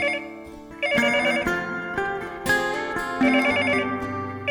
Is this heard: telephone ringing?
yes